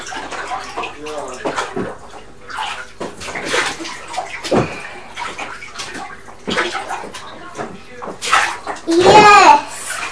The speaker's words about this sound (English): Keep rinsing your hair then, it's not on back yet.